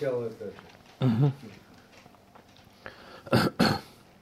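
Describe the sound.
Throat clearing from a dry throat: a few short, rough, rasping bursts separated by quiet, moderately loud.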